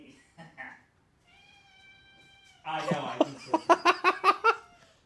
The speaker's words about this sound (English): can you meow again?